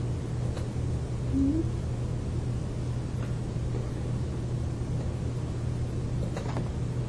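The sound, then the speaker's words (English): A cat purring, a low, steady rumble that holds at an even level throughout with no clear breaks. “He's purring.”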